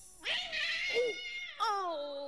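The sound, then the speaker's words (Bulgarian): A cat meows twice: a long, drawn-out meow followed by a shorter one that falls in pitch at the end. Both are clear and alone. “Мяу, мяу. Ела, ела, котенце.”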